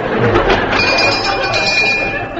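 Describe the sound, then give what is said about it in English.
An electric bell rings for a fire drill, giving a steady, sustained high ringing over a dense background. “Here, what's the bell for? Fire drill.”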